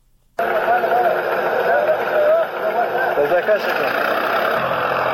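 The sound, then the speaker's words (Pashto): A tractor ploughs up poppy fields in Nawzad district, Helmand. Its engine drone starts abruptly after a brief silence and holds as a steady, loud rumble with a wavering whine, dipping briefly partway through. “دا د هلمند په نوزاد ولسوالۍ کې پر ټراکتور د کوکنارو د کښت اړولو غږونه دي چې د طالبانو سیمه ییزې ادارې له رسنیو سره شریک کړي دي.”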